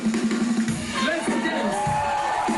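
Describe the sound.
A concert crowd of about 900 fans roaring and cheering wildly during a rock show. The sound is a loud, dense, continuous din of voices with music running underneath.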